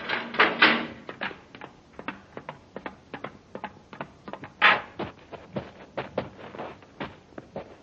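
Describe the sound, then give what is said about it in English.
A spaceship's outer hatch opening as a radio drama sound effect: a long run of many quiet mechanical clicks and ratcheting ticks in an irregular rhythm, with no talk. “Check your suit spacerphone, Happy. It's working okay, sir. And so's the temperature control. Yeah, we'll need it. All right, open the outer hatch.”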